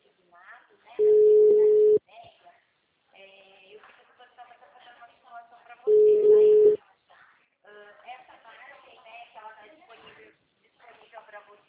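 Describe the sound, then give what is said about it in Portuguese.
A steady, loud electronic line tone sounds as a phone call drops. It comes twice, each time for about a second, and people talk in between and afterward. “a ligação caiu”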